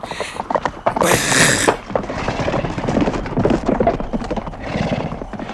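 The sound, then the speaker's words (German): A horse carrying a rider gallops past in fog, its hooves pounding in a fast, dense rhythm throughout, with a loud whinny early on. “Wir sind wohl nicht die Einzigen, die zu dieser Stunde unterwegs sind. Unheimlich, wie der Reiter aus dem Nebel tauchte, vorbeiflog und blitzschnell wie ein Spuk wieder verschwand.”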